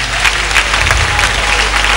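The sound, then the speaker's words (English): An audience claps during a church service, a dense, steady patter of many hands that holds evenly loud for the whole moment without pause. “Clap for Jesus again.”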